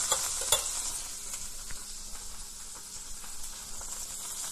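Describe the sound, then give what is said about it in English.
Capers sautéing in a hot pan while being stirred, giving a steady, bright sizzle and hiss with faint scraping ticks throughout and no voices. “We're going to stir those in, let them saute for about a minute. Okay, let those saute.”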